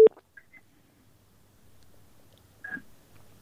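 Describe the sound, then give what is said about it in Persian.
Telephone line tones as a radio listener's troubled call cuts off, a few short electronic beeps separated by near silence and a faint low hum. “بله تماس شنونده ما خیلی مشکل داشت و تماسشان هم قطع شد.”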